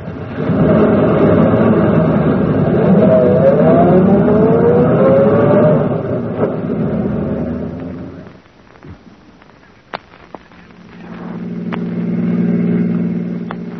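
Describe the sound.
A car engine runs steadily and fairly loud for several seconds, then drops low with a few sharp clicks before the engine hum swells back up.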